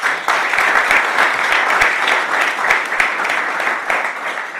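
An audience applauds to welcome an ambassador onto the stage for a discussion event. The clapping is loud, dense and sustained throughout, with scattered sharp individual claps.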